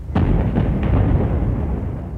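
Heavy artillery fire on the First World War Western Front: a sharp boom opens into a deep, loud rumble, with a couple of further muffled blasts rolling through the low roar.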